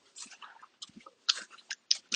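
Gum being chewed with an open mouth makes wet, smacking clicks in an irregular rhythm. The bursts are fairly faint and close together, with no talking.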